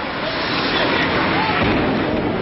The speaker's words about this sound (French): L'impensable vient d'arriver. Un avion transformé en bombe volante vient de fondre sur la première tour du World Trade Center.